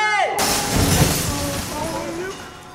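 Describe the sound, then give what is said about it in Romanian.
A loose roof tile falls and shatters: a short whistle drops in pitch, then a loud, sharp crash bursts out with a rough, noisy tail, while voices call out over the clatter. “Fii atent la țigla aia desprinsă! Ia uite, cade! Jos capetele!”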